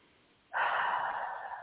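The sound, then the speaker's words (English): A deep breath drawn in, a soft airy rush that begins abruptly after a short quiet moment and holds steadily for over a second, faint and alone. “Take a deep breath.”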